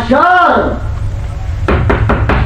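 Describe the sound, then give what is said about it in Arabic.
Four firm, evenly spaced knocks on a door, sharp and loud, come after a short burst of voice at the start. “من يدق الباب دق الشرط؟”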